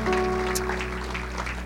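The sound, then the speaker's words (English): Applause in a church for a guest preacher, a soft, diffuse spread of clapping over a steady low electrical hum, fairly even in level for under two seconds. “Can we just give a round of applause to the man of God today?”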